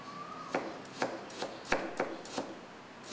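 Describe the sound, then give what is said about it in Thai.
A knife slices a peeled ingredient thinly on a board, producing a series of crisp, evenly spaced cuts that stand out against a quiet background. “ลอกเอาเนี่ยออกนะครับแค่นี้เองนะครับแล้วก็หั่นนะฮะแล้วเราก็ซอยบางๆนะครับ”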